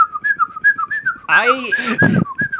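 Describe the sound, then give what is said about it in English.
Human whistling plays a playful tune of short, high, clear notes that rise and dip. A brief burst of louder, rougher sound cuts in partway through. “are just going to have a little whistling jamboree over here”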